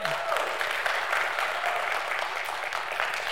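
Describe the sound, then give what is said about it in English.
A group of people claps in response during a worship service, a steady, dense patter of hands that runs unbroken for the whole stretch, with faint voices mixed in. “And for some reason, our guys have decided that clapping is the way that they respond to everything.”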